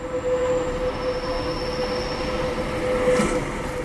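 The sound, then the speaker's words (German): The Centovalli railway train winds from Locarno to Domodossola through the valley's bridges and tunnels, rumbling steadily with a thin, high wheel squeal held above the rolling noise. “Vorsichtig schlängelt sich diese Bahn von Locarno über 79 Brücken und 24 Tunnel durch das Centovalli bis auf Domodossola.”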